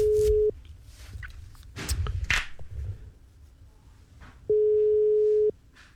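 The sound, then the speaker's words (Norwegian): Telephone ringback tone on a phone line: a steady, mid-pitched electronic tone sounds twice, the first cut short at the start and a full roughly one-second tone near the end, with faint rustling and a few soft thumps between. “Vi får ringe neste som står på lista vår, og da skal det ringe igjen der ute I Radio Lytterland”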